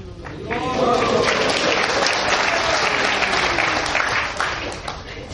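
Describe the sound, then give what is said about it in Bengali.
An audience at a religious discourse claps hands in loud, continuous applause lasting several seconds, with a voice briefly audible at the start. “দেখো আমাকে হাতে তালি দিলে চলবে না”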